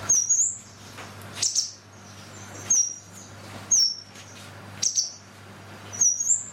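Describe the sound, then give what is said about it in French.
Blue tit song, a small insect-eating songbird, delivered as six short, high, thin chirping phrases at fairly even intervals over a soft, steady low hum. “La mésange bleue. La mésange bleue est un petit passereau insectivore au plumage parfois rehaussé de teintes vives répandues dans le monde entier.”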